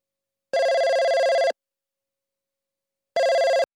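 A telephone rings for an incoming call: a loud, steady electronic ring lasting about a second, then a pause and a second shorter burst of the same tone.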